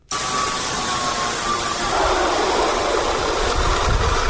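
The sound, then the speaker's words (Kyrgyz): Machine tools humming before dawn in a village workshop yard where tools are repaired. A loud, continuous droning whir starts abruptly and holds steady, its tone shifting slightly partway through. “Таң атпай короосунда мындай ызылдаган үн угулган Сарыбай айылынын тургуну Казак Абдыкеев колундагы станоктору менен айылдаштарынын шаймандарын оңдоп берип жатат.”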